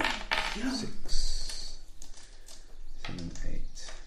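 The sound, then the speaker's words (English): Ten dice handled and rattled for a roll in a tabletop game of Tales from the Loop, light clicking clatter scattered under people talking. “So you're going to roll 10 dice. 10 dice.”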